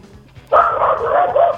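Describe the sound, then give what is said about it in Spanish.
A dog gives one loud, drawn-out bark that starts abruptly after half a second of near quiet and holds a wavering, whining tone for about a second. “Bueno, hasta el perro está.”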